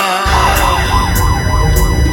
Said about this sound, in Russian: Играет шарманка и воет сирена.